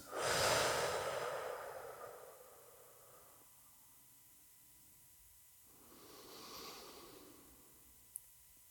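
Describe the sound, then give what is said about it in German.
Slow, deliberate breathing through the nose: a long, airy breath in at the start, then after a quiet pause a softer breath out, with a faint click near the end. “Ich atme ganz bewusst ein. Aus.”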